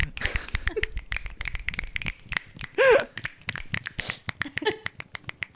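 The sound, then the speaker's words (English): Many loud, sharp finger snaps from a group of people come in an irregular, rapid burst throughout, with brief voice sounds mixed in between them. “Everybody's snapping so loud.”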